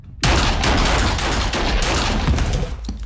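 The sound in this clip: Gunfire aimed at an unarmed man bursts in abruptly and stays loud, a dense, continuous crackle of rapid shots lasting about three seconds with no pause or talking.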